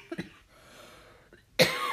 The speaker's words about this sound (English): excuse me, being authentic is what causes me to cough.